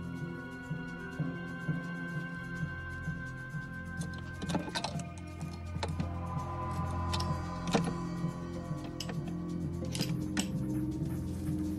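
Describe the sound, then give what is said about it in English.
Small metallic clicks and scrapes as the lock of a small chest in a drawing room is picked: a few sharp, scattered ticks over a steady low hum, with no voices. “In the drawing room, he returns to the small chest and begins to pick the lock.”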